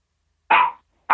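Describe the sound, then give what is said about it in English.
A dog gives two short, sharp barks separated by a brief silence, each one loud and abrupt against an otherwise quiet background. “Sorry about the dog.”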